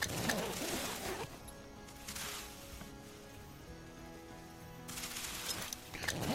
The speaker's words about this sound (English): Going through a lot of shotgun shells.